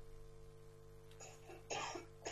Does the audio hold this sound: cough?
yes

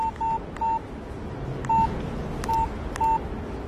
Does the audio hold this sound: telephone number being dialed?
yes

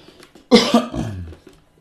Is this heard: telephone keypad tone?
no

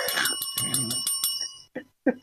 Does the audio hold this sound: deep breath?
no

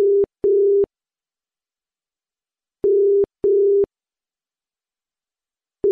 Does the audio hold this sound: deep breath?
no

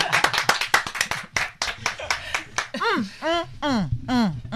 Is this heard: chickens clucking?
no

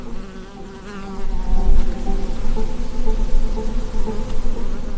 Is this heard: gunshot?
no

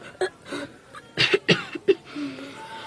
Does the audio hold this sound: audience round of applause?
no

